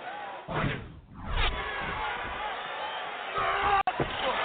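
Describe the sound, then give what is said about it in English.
A wrestler is power-slammed through a table at a pro wrestling event: a heavy crash and a whooshing thud are heard under constant crowd roar, with excited commentary running over them. “And running power slam through the table!”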